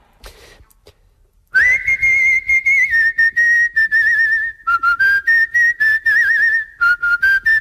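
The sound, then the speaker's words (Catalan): A person whistles a lively, wavering melody in clear, high sustained notes broken into short phrases, starting after a brief faint pause. “I ara us aixeularé més, No, doncs no ens cal, no ens cal. Ara us puc aixeular.”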